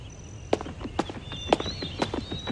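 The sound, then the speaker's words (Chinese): Hoofbeats of a running calf sound as regular, fairly sharp thuds spaced about half a second apart, with softer steps between them over a steady background. “小牛，你先跑几步，我看看你能跑多快。小牛，快跑到这里来，跑过来就可以吃牧草了。”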